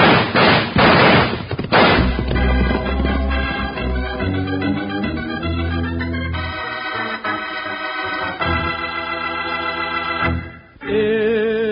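Rifle gunfire from an Old West shootout with a bushwhacker: a few sharp, loud shots crack in quick succession at the start, then dramatic music swells and carries on to the end.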